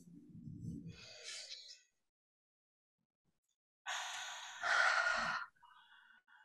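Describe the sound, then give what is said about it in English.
A group taking a deep breath together in a mindfulness moment: a soft, airy inhale, then a pause of near silence, then a long, breathy exhale that swells into a louder sigh, with a brief faint breath at the end. “why don't we all take like a deep breath together? Let's do yeah. it. Okay, let's do it.”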